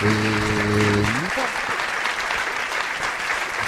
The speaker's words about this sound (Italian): questi applausi sono per il dottore che si meritano tutti e anche per noi che ci rimeritiamo altrettanto questi applausi.